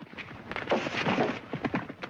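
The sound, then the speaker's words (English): Horses gallop at breakneck speed through a gap in some fencing with a pursuing group of riders behind, their hoofbeats forming a fast, steady, drumming patter over a low rumble. “Frank and Jesse gallop through a gap in some fencing at breakneck speed, followed shortly after by a posse of men in pursuit.”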